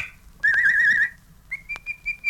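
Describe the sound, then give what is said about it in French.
Whistling meant to call a neighbour's dog: a bright warbling trill that wavers quickly up and down, then a few short steady whistled notes at a slightly higher pitch, clear and fairly loud. “Siffle le chien de la voisine.”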